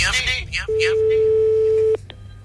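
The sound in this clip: A single steady ringback tone sounds on a radio show's outgoing phone call. It follows brief speech, lasts about a second, and ends with a click.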